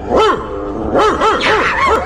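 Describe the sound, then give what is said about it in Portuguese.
Dogs bark in a quick run of sharp, high yelping barks, several in a row with some overlapping, loud and with no voices over them. “Vamos atiçar os cachorros nele?”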